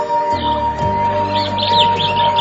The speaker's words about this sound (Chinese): 打开咗个雀笼。将100只麻雀通通咁放走咗